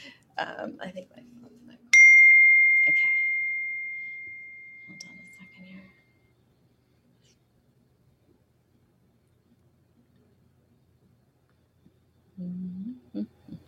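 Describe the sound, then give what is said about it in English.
A single bell-like ding rings out and fades slowly over several seconds. Voices talk before and after it. “later, when I'm editing this, I'm going to count the bells, and that's going to be the name of the episode, like six bells or seven bells or something like that.”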